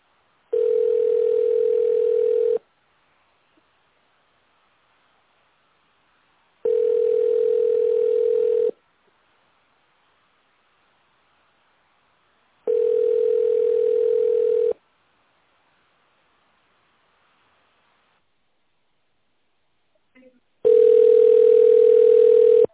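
Telephone line tone during a call transfer: four steady mid-pitched tones of about two seconds each, separated by long silent gaps, the last slightly louder.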